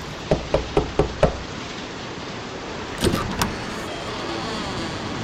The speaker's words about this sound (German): Dort mit dem großen Eisen muss ich klopfen.